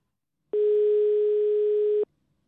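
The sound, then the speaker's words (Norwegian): A telephone dial tone sounds as a call is placed to phone in a tip. It is a single steady, clean tone that holds for about one and a half seconds and then cuts off, with silence on either side. “Og vi tenkte vi skulle gjøre noe til gjengjelda for universals, og derfor så tenkte vi skulle ringe dem og gi dem et tips på en sak, sånn som de liker å få tips. Hør på dette.”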